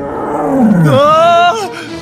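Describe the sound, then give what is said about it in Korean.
A loud, drawn-out roar from a fantastical beast with a lion's head, a bear's body and hummingbird wings, deep and growling at first, then shifting into a higher, strained cry before cutting off. “쉴 만한 곳을 찾은 왕자는 우렁차게 포효하는 소리를 들었어요.”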